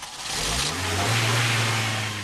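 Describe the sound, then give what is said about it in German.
An old Toyota Corolla taxi's engine catches and revs, a low hum whose note climbs as it speeds up under a broad hiss, then holds at a fairly loud, steady roar. “Aber der alte Corolla springt nochmal an.”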